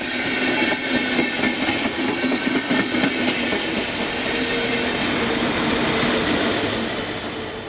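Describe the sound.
Train passing on railway tracks, a loud continuous rumble with a rhythmic clickety-clack of wheels that eases off slightly toward the end. No voices are heard.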